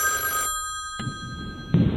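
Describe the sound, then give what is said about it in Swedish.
A telephone rings on a call-in line, a steady electronic ringing that runs through the whole clip over a low murmuring rumble. “Och det ringer på svaran också.”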